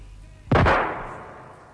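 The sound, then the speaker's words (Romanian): A single pistol gunshot, a self-inflicted shot in a drama scene, rings out as one sharp, loud bang. It is followed by a short decaying tail, with a faint low murmur before it. “Iar se joacă cu pistolul. Hei, dar ce faci acolo? S-a împușcat. S-a împușcat în tâmplă.”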